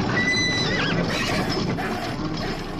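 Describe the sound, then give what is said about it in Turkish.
Carriage horses whinnying and neighing wildly in panic, with a shrill, wavering whinny near the start over a dense, noisy commotion that stays loud throughout. “dua okumaya başlayınca atlar çıldırdı.”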